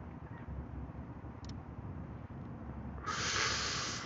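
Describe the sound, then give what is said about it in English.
A person inhales Blue Dream cannabis smoke: after a low, steady background rumble, a breathy hissing intake rises near the end and continues to the close. “We smoking on some Blue Dream. Don't y'all hear me inhaling and holding it in?”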